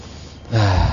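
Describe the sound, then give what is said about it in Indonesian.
A single deep breath drawn in by a male teacher during a religious lecture. It is a sudden rush of air that swells quickly and stays loud for under half a second. “Sebentar, sekarang tarik nafas dulu.”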